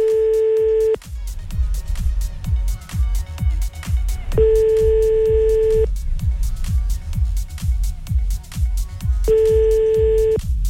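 Ringback tone of a telephone line while a call is placed: a steady electronic beep sounds three times in long on-off cycles over a thumping music bed.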